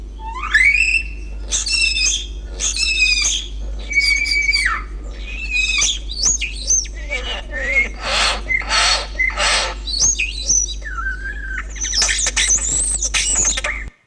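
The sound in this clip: Song of a young bird raised in isolation: a long run of rapid, high-pitched chirps, trills and harsh squawky notes in quick succession over a constant low hum.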